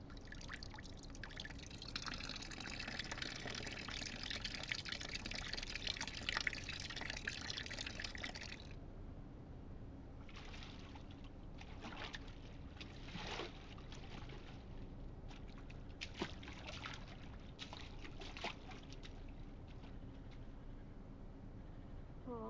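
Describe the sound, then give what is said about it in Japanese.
Hot water being added: a steady rushing pour for the first several seconds, then scattered trickles and drips continuing faintly to the end. “ならもうちょっとお湯を足すっすね”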